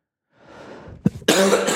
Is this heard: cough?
yes